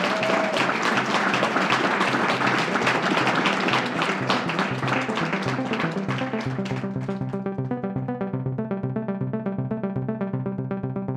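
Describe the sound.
An audience applauds to thank a speaker, a dense, loud wash of clapping that carries on steadily before sustained musical tones rise beneath it and take over as the clapping fades.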